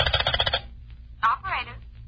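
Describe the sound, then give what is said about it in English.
Telephone number being dialed: a quick run of evenly spaced tone bursts, then a brief pause and a voice speaking. “Go on, get on that phone. Brighton 4506.”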